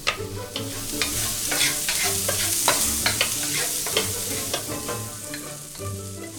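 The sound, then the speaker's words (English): Shallots and garlic frying in a pan over medium-high heat, a loud steady sizzle broken by repeated sharp clicks and scrapes of stirring, with a low hum beneath and no talk. “The first step is I'm going to cut some shallots. Then fry them with a little bit of garlic on medium-high heat.”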